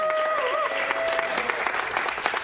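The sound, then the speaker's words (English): A live audience at an in-store event at Micro Center applauds with brisk, steady clapping that fills the whole moment, with a brief tonal sound near the start. “There's the live studio audience”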